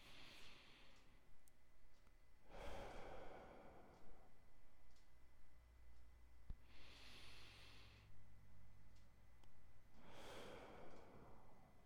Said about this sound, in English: So I'm going to breathe in through a count of four, pause for two, exhale for four. I'm going to do that five times.